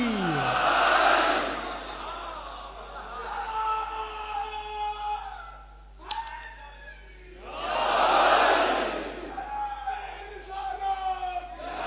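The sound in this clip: Massed shouting from a crowd answering the Naara-e-Haidari call at a religious speech, two big roaring surges with quieter, scattered voices between them.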